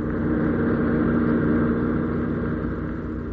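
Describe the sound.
A car engine drones as the car drives fast, a steady, low, fairly loud hum with a thick rumble that stays constant throughout, without talk.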